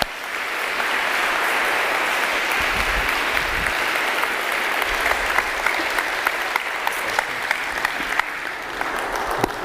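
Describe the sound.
Church audience applauding to welcome a guest preacher to the front, a dense, steady wash of clapping that holds at an even, fairly loud level for the whole stretch.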